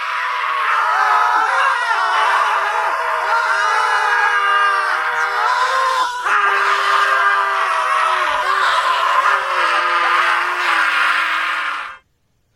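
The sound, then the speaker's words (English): About thirty men scream together in a loud, sustained roar of overlapping voices that holds steady for around twelve seconds, then cuts off abruptly. “Like 30 guys walk into the room, start screaming, and then they just leave him.”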